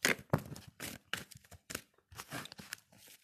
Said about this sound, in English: I was gonna pull some cards, but I just meditated and I was like, okay, cool. But I'm gonna pull a card though too.